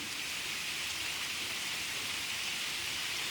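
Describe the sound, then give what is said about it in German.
Rain falls in an even, soft hiss of countless drops, with no distinct single hits and no voices. “so wie der Regen anfängt sich einzuregnen, werde ich noch mal kurz die wohltuenden Tropfen”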